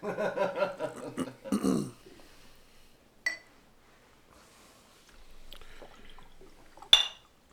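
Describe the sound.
A drink being poured into a glass: a faint, steady pour runs for about a second and a half after a stretch of talk and a single light tap, then ends in a brief sharp sound.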